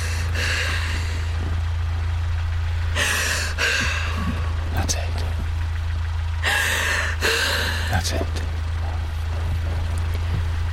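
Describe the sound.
Heavy gasping breaths in two rough bursts, each a cluster of sharp, breathy intakes, set over a constant low engine-like hum that runs throughout.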